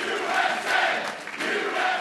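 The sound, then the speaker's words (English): A crowd cheers and shouts wildly at an election-night political gathering: a loud, sustained roar of many voices with brief swells, holding strong throughout. “While Boehner choked up, the crowd went wild.”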